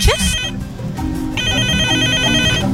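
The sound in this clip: A telephone rings with an incoming call to a radio show: an electronic ring tone sounds briefly at the start, then returns after a pause as a longer, steady, bright warble.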